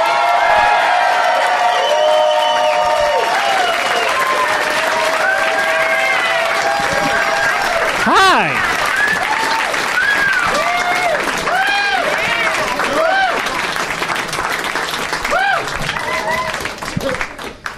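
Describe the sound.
Audience applause and cheering welcome guests onto a stage. Loud, sustained clapping is mixed with whoops and shouts throughout and thins out at the very end.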